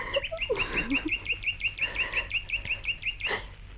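High, rapid chirps from a small sparrow repeat in an even, steady rhythm throughout, bright and clear over a low background.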